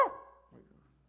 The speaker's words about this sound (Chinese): 像这条狗啊，这怎么办？对不对？阿狗，我讲说话给你听，